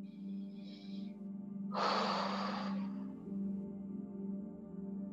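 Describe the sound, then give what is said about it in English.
A single deep breath in during a guided meditation: a soft, airy hiss lasting about a second over a steady, low musical drone. “go ahead and close your eyes, taking a deep breath in.”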